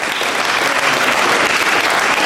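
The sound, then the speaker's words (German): Dense, steady audience applause fills an anti-fascist conference in Cologne, a continuous wash of many hands clapping at an even loudness for about two seconds without a break. “also bitte diese Bekundung von Sympathien und so weiter, könnt ihr euch das Ende aufheben oder vielleicht danach ein Schulterklopfen”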